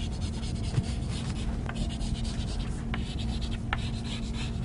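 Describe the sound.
A red colored pencil scratches over paper in continuous shading strokes, a steady dry rasp with faint accents, over a low constant hum.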